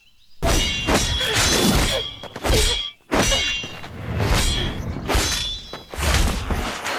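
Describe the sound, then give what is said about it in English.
Swords clash in a sword fight, giving loud metallic clangs with bright ringing tails. They come in several dense bursts separated by short pauses. “You focus too much on my sword. You didn't expect sword fighting to be all about sword fighting, did you?”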